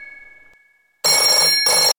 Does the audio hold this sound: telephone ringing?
yes